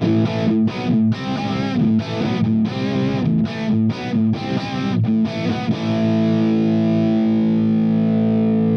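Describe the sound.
Electric guitar riff played through a Hughes and Kettner amp model with a distorted tone: choppy, loud chord stabs separated by short gaps, then one chord left to ring out and sustain for the last few seconds.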